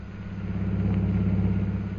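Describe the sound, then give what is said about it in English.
A car engine hums steadily as the vehicle drives through the streets of Shanghai in a radio drama sound effect, a low, even drone with no break and no voices. “We now find Jungle Jim and Mr. Cooper driving through the streets of Shanghai on their way to the Jockey Club.”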